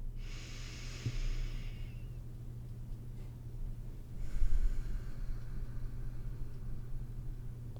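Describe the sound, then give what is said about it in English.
One deep breath: a slow, airy inhale, then after a pause a longer exhale, both over a constant low hum, with no talking. “So let's take a breath here.”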